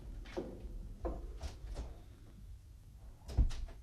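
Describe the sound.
A door being opened, giving a few soft clunks and clicks from the handle and latch, with the last knock loudest, and no voices.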